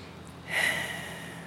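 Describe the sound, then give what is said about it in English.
One deep breath, drawn in as a soft, airy hiss that swells and then fades slowly. It is heard alone and is fairly faint. “Just taking a breath for nothing. Maybe join me.”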